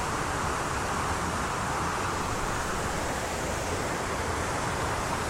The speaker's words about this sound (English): There's not been so much rainfall recently, there's a medium amount of water flowing.